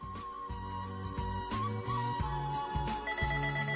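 A melodic telephone ringtone announces an incoming live call, playing a steady, continuous run of bright musical tones at an even level with no talking.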